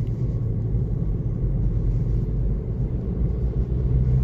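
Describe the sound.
Steady low rumble of a car being driven, engine and road noise holding an even, constant level throughout with no talking.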